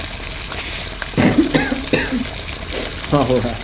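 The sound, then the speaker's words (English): Food frying and sizzling in a pan during cooking, with a steady hiss and crackle while people talk over it in bursts. “It's just seeming like it's steaming up a lot, and smells delicious though. I think. You know, maybe it'll add some flavor to the fried stuff.”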